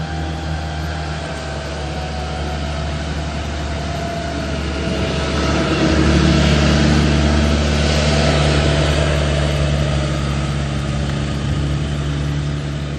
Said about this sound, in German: So, ich habe jetzt gerade mal den fröhlichen Landwirt vorbeigelassen, der hier auf seinem landwirtschaftlichen Fahrzeug an mir vorbeigefahren ist und laut ist.